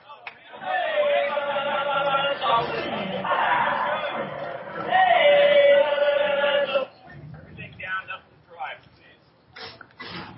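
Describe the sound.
Baseball stadium crowd reacting to a curveball called for a strike: a broad murmur of many voices with some laughter, swelling louder for a moment before dropping to scattered, quieter voices.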